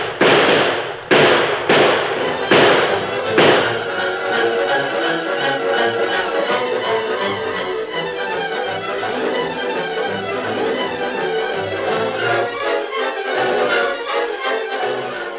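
Gunfire in a shootout against attacking raiders: a few sharp, loud bangs open, then a dense, continuous barrage of rapid shots.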